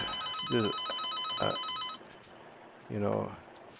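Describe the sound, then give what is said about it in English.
A telephone bell rings in a steady trilling burst for about two seconds and then stops, with a voice talking over and after the ringing. “we're gonna have to put up with that phone. I don't know how to turn it off.”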